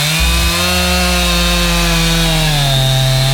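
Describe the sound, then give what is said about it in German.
A chainsaw is cutting through a tree being felled. The engine holds a loud, steady, high whine throughout, and its pitch dips slightly near the end. “Dann mal die Kettensäge. Und dann fällt der Baum.”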